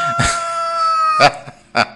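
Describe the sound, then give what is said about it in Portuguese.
A rooster crows in a long, sustained, harmonic call lasting about a second. Two short, loud bursts follow, with no voices heard. “Um vídeo publicado por Roberta após a audiência mostrando o galo.”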